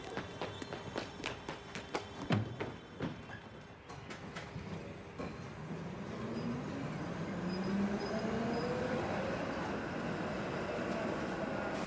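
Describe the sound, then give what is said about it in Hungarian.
A tram approaches: footsteps at the start give way to a swelling rail rumble with a rising whine, and the rumble grows louder and holds steady toward the end. “jön a villamos!”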